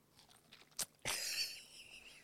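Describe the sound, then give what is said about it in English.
Teeth bite into a soft, custardy fruit held close to a microphone: a quiet click, then a wet, crunchy squelch that trails off softly. “I am now opening my mouth. The fruit is entering my mouth and we will hear the sound of the fruit and the teeth colliding.”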